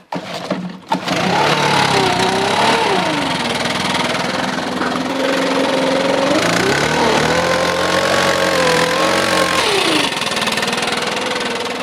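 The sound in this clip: A BR600 leaf blower, the strongest model and used mainly on wet leaves, is started. A few brief knocks come first, then the engine catches and runs loudly and steadily, its pitch rising and later dropping back.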